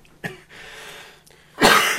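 Coughing and throat clearing from a person with a cold: a short cough, then a louder, harsh burst of throat clearing near the end.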